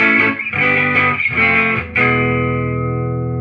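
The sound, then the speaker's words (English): Electric guitar played straight through a Deluxe Reverb amp with the reverb turned off: a few strummed chords, then a final chord left to ring and slowly decay, loud, clean and dry. “Let's just do no reverb on both. Alright. Can you just turn the effect all the way down? There you go. Okay. Just the Deluxe Reverb, just straight amp.”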